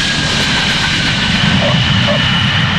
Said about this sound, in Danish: Få minutter lander vi i København. Vi anmoder passagererne om at spænde sikkerhedsselerne og slukke cigaretterne.